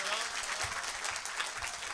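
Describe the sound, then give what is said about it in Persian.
An audience claps at a Persian-language music gathering: dense, continuous applause with a voice mixed in. “یه کف جانانه بزن، یه تیکه و یال بزن. دست بیاد بالا ببینم جانم.”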